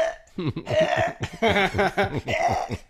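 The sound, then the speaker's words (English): A voice imitates dry heaving, like a cat coughing up a hairball. Several bursts of rapid, guttural, croaking retches come one after another, loud and rough, with brief gaps between them. “like a cat coughing up a hairball”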